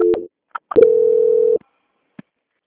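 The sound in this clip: Telephone line tones during a call transfer: a short low beep and a few faint clicks, then one longer steady tone of under a second, followed by near silence.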